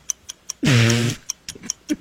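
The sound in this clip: Rapid, even ticking of a 30-second game timer running during a category word game: crisp clicks about five per second, broken midway by a brief sustained tonal sound before the ticks resume.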